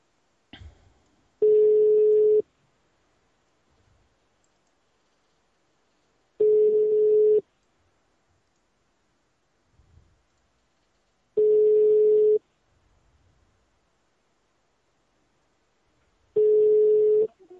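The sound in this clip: A telephone ringback tone plays while a call is placed again: four steady single-pitch beeps, each about a second long, separated by roughly four seconds of near silence with faint small noises.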